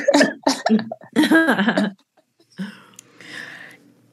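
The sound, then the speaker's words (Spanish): A person coughing: loud, throaty bursts of coughing up front, then after a brief gap a quieter, breathier cough trailing off. “Y ya no me puedo reír porque toso.”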